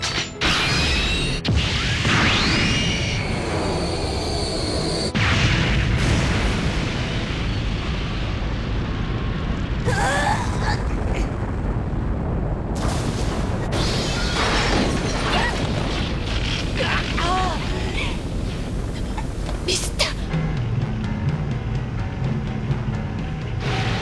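A sci-fi positron rifle fires with heavy explosions. Several loud booming blasts rise over a continuous roaring rumble, with sweeping electronic tones and mechanical whines between them.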